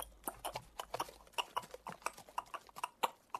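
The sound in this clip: Hooves of black horses drawing a black carriage up a path: a steady clip-clop of many sharp hoof strikes at an even walking rhythm, with no voices.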